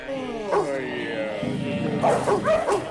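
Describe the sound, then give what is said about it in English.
Dogs bark and yip in a few short bursts, the later ones sharper, over a steady low droning tone. “Shut up! That's better. You dogs aren't allowed to bark.”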